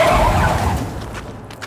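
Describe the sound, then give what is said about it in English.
A cleaning vehicle truck rolls past with a broad, loud rumble that gradually thins and fades. “suddenly a truck appeared, just fading into the air in front of us out of nowhere. It was moving in our direction, and I had to yank the Doctor out of the way before it rolled over us.”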